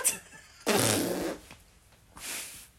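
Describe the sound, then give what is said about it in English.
Fart noises made with the mouth: a long, loud, blubbering raspberry, then a shorter, softer one, with a brief flutter at the very start and no talk. “I didn't mean to make those fart noises with my mouth.”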